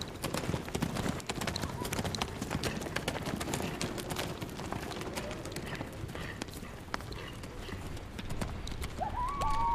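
Hoofbeats of several ridden horses heading toward the edge of a forest: a continuous run of many clip-clop strikes at a steady, fairly loud level, holding throughout.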